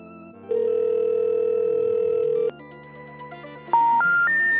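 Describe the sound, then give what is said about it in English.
Voicemail tones on a phone: a long steady electronic beep lasting about two seconds, then after a short gap three brief tones stepping upward in pitch, one after another. “Oh no, we have a voicemail.”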